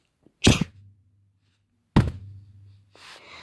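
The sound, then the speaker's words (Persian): A wooden stick is struck against the ground in two sharp, heavy thuds about one and a half seconds apart, each with a short decay, followed by a softer, hissing noise. “مرد ثروتمند چوبش را به زمینی که کوبید اینجوری”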